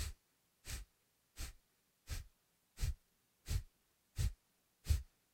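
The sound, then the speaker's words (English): Eight sharp, forceful exhales through the nose as the belly pulses in and up during a yoga breathing exercise. Each breath is a short, breathy puff, evenly spaced in a steady rhythm with brief silences between. “it's a pulse of the belly in and up on the exhale. So it sounds something like this.”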